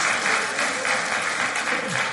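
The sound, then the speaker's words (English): An audience applauds: dense, continuous clapping at a steady, fairly loud level throughout, with no pause and no talking over it. “All right, give him a round of applause.”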